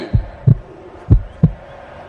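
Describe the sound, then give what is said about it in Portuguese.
Heartbeat sound effect during a tense football penalty kick: deep, low thumps in lub-dub pairs, two pairs followed by a single beat, with no talk over them. “Olha o coração vascaíno batendo forte porque precisa do gol.”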